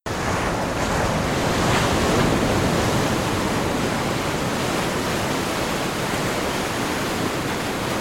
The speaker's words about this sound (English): Well, the reality is, it is waves crashing on a beach, but that is not just any wave. That was recorded.